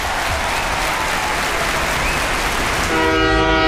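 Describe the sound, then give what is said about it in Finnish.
A train travels with a steady, dense roar of rushing noise, and near the end a loud horn-like tone with stacked harmonics sounds over it. “Seuraavana aamuna me matkustetaan Teresan kanssa junalla Napoliin.”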